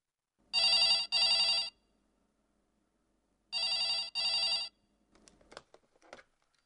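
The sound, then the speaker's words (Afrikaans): A telephone rings after a call is placed on a phone: two bright, trilling double rings separated by a pause, followed by a few faint, brief knocks and clicks. “Ek bel op my phone.”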